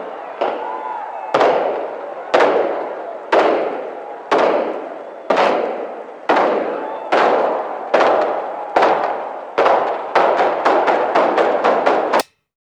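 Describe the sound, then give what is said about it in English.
Demolition charges fire during the implosion of the Hacienda Hotel: many sharp, loud blasts, each with a short decaying rumble. They come at a steady pace, quicken into a dense burst near the end, then cut off abruptly. “welcome to our special coverage of the implosion of the Hacienda Hotel. Here we go.”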